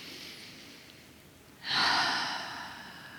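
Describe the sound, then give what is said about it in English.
A single deep inhaled breath taken during a guided relaxation exercise. It is a soft, airy rush that starts after a quiet pause, swells quickly and then slowly eases off, with no talking. “take a breath with me. Big inhale. And another inhale.”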